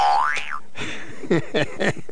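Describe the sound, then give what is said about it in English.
A cartoonish boing sound effect played as a comic punchline: a springy tone swoops up and back down in pitch in the first half second, followed by three shorter wobbling twangs. “I love when you always have the boing on standby. Yes. Took me a little longer to find it than I like, but I found it.”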